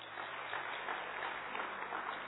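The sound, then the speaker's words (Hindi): Audience applause at an event attended by officers and their families: dense, continuous clapping that holds at an even, moderate level for the whole clip. “सभी ताली बजाएंगे।”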